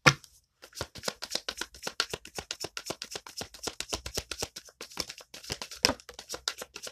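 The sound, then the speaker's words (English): Tarot cards are shuffled and drawn, giving many quick, crisp flicks and soft slaps in a rapid, uneven rhythm, fairly faint and without talk. “Give me three cards for the left spirit, please. And get three for the left.”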